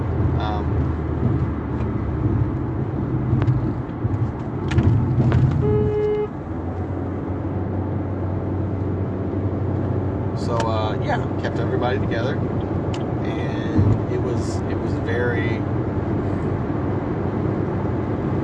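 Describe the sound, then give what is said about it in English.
Steady low road rumble from a car being driven while a person talks over it, a continuous engine and tyre drone throughout with a brief tonal note partway through. “Again, this is drive time, so I'm driving actually while I'm talking.”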